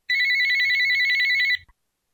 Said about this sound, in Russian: Неожиданно у Александра зазвонил телефон.